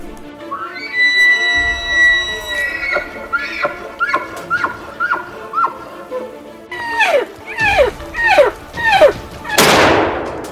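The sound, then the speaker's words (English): A single loud gunshot from a hunt cracks sharply near the end. Before it comes a run of repeated, descending animal-like calls over a low, steady rumble. “Got him, dropped him. Nice shot, buddy.”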